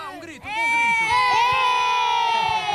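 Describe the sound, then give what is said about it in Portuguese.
A group of boys shouting and cheering in response to a call for a big shout, high voices merging into a loud, sustained cry that holds for more than two seconds. “Gritem lá, um grito, um bom”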